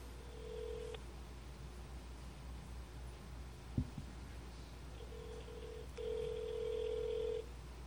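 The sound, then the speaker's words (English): A telephone rings over speakerphone, heard as steady, electronic ringback tones in a few spaced bursts against a low background hum. A single sharp click sounds in the quiet gap between the tones. “So let's get him on speaker. It's going to be a few rings until we get to the voicemail, but it's working.”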